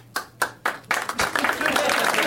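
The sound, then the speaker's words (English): Part of an audience applauding: four separate, distinct claps come first, then they swell into a dense, continuous patter of clapping. “You almost got a third of the crowd on the board with that. I refuse to applaud. It's only the people I gave gummy bears to.”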